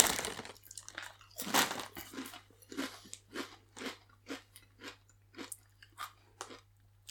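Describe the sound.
Crunchy crisps with a slight spicy kick being chewed: many steady, evenly spaced crunching bites, fairly faint, with no talk.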